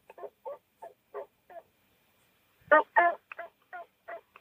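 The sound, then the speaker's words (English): Soft yelps from a hand-operated turkey call: five gentle evenly spaced notes, a short pause, then two louder, fuller notes followed by four quicker, softer ones, all clear and without rasp. “You want to call very passive and easy, just like soft yelps like this, and keep it clear and not rasp it.”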